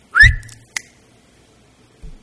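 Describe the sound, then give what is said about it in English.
A person whistles once: a short, bright note that rises quickly and then holds steady for a moment. A brief sharp click follows, then near silence with a low thump at the end. “And He can simply whistle.”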